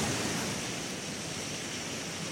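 Waves wash onto a shore beside a beach, heard near the water from a lookout as a steady, even roar of surf with no distinct breaks.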